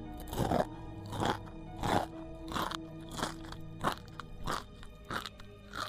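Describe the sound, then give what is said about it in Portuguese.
Someone chewing and eating food, with many faint, regular crunches at an even, steady rhythm, about one bite every two-thirds of a second, over a low constant background hum. “Ele come alguma coisa ali também.”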